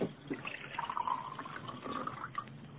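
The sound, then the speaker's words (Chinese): Drinking water being poured: a faint, continuous trickle of liquid with a soft bubbling gurgle. “水，水，我要喝水。啊，好好好，我来倒水啊。”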